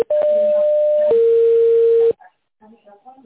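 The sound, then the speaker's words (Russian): A steady telephone line tone plays while a call is transferred to an operator. It holds one pitch for about a second, steps down to a lower steady pitch, then cuts off abruptly, leaving faint voice-like sounds. “Ваш звонок переводится на оператора.”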